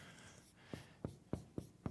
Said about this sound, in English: Can you guys see that? All right, I'm writing bigger